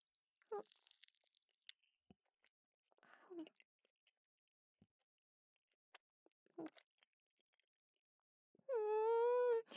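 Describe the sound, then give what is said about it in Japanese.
Three soft, faint bites into a choux cream puff, spaced several seconds apart in near silence, then a sustained hummed murmur of enjoyment at the end. “大好きなんですこのシュークリーム。じゃあ私もいただきまーす。”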